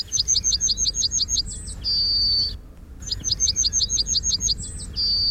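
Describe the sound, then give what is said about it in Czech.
A British yellowhammer sings two loud phrases, each a rapid run of high repeated chirps ending in a long drawn-out note, separated by a brief gap. “protože jsem si říkal, že bychom mohli opustit hranice naší republiky a podíváme se do Británie, jak zpívá britský strnad.”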